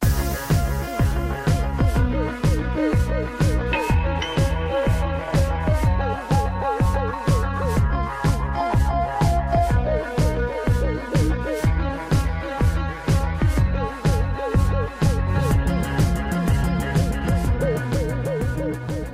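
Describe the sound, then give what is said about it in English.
Theme music from the TV singing competition American Idol plays loudly. Driving electronic music with a steady, punchy pulse and dramatic synth layers swells in at the start, then holds a relentless rhythmic beat throughout. “It's been 14 years of the inescapable influence of this. Don't even try to pretend you don't know what that sound is. American Idol is saying goodbye.”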